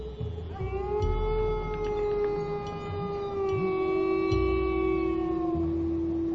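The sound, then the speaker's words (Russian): A stray dog with foam dripping from its mouth howls piercingly on an empty street, head thrown back: one long, sustained, rich-toned wail that holds a steady pitch before easing slightly lower, over a low rumbling background. “выскочила бездомная собака с пеной и слюной, капающей из пасти. Увидев меня одного посреди пустынной улицы, она запрокинула голову и пронзительно завыла.”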